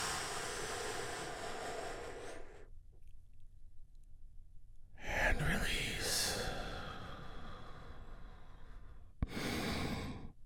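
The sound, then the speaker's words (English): Deep breaths taken slowly in and out during a guided relaxation, each one a long, soft, airy rush of air, separated by brief quiet pauses. “And we do this by taking a great, big, deep, healing breath all together. Here we go.”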